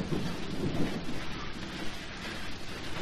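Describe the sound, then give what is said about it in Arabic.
Steady heavy rain hisses across the whole clip while a deep, loud rumble of thunder rolls underneath, strongest near the start and then easing into the continuous downpour. “ولكنها تمطر.”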